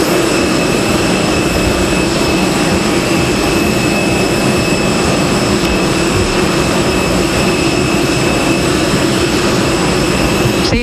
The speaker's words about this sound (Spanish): que recogerá de un momento a otro su escalerilla y comenzará a rodar por esa pista para despegar enseguida,